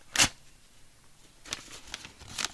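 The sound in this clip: A paper envelope holding a progress report being slit open with a knife: one sharp tearing burst, then a few softer rasping rips and rustles after a pause.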